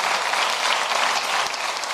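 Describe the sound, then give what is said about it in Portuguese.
Applause from an audience during a religious sermon, a brisk, dense clatter of many clapping hands that stays fairly even, dipping briefly near the end. “Vamos aplaudir por essa...”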